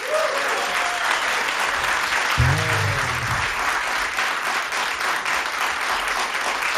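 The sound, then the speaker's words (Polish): Studio audience applause welcomes jazz artists onto the stage in a radio studio. Thick, continuous clapping from many people runs loud and even throughout, with a brief voice rising over it midway. “Bardzo Państwu dziękujemy za tak gorące powitanie artystów na scenie.”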